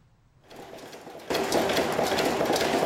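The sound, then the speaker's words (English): A screw-making machine in a factory, turning out over 100 screws a minute, whirs and rattles. It starts softly after half a second, then jumps to a louder, dense mechanical churn that holds steady, with no voices. “This machine produces over 100 screws every minute.”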